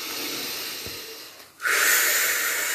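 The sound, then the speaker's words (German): During a guided meditation, a deep breath is drawn in and let out. A long airy breath slowly fades to a brief pause, then a louder rushing breath of air follows and holds. “und atme noch einmal tief ein und aus.”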